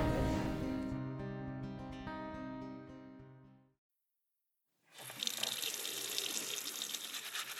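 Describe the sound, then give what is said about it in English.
Water runs steadily from a tap while someone washes their hands, a continuous bright hiss that starts after music fades out and a short silence. “I'm just taking a minute to wash my hands before we begin the show this week.”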